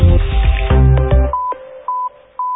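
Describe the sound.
Telephone keypad dialing tones as a short code is entered: a few crisp, evenly spaced electronic beeps, the first overlapping a fading musical tone and the later ones ringing out clearly on their own.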